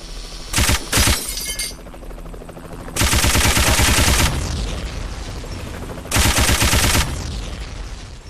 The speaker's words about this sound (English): Machine gun.